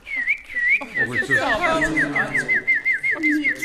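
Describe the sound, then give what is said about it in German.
A human voice imitates a blackbird's song with a warbling run of rapid whistled trills that wobble and step downward, loud and continuous, with voice-like tones sounding underneath. “Ich kann die Vögel nachmachen. Jetzt bin ich eine Amsel.”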